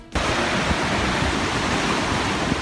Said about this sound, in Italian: Come una cascata gigantesca, per la prima volta in 50 anni l'acqua tracima oltre il bordo della diga di Oroville nel nord della California